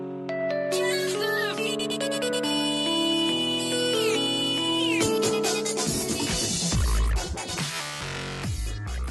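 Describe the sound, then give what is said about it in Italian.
A ringtone from a Finnish maker's Nokia mobile phone plays a bright melodic run of electronic tones, then gives way to a fuller, busier musical arrangement with heavier low beats. “Dopo anni di servizio, la suoneria della Nokia aveva bisogno di un aggiornamento.”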